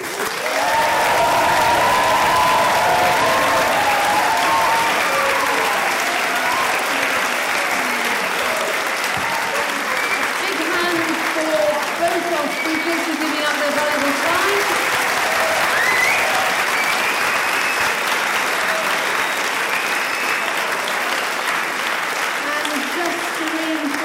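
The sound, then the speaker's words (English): Sustained, loud applause from an audience for the Cranleigh School debate team, an even wash of clapping that carries on steadily for the whole stretch with faint voices mixed in. “could um, the audience please give a big hand for Mr. Burden and Cranleigh School?”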